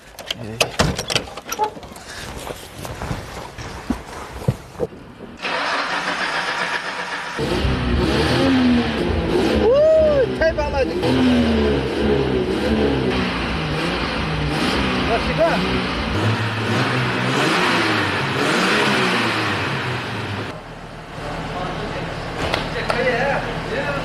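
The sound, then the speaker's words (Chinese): A car engine is started and revved, rising into loud, throaty surges that climb and fall in pitch before settling to a steadier idle, with people talking over it. “我能不能上去塞塞油门，听一下声音？ 发动，发动。”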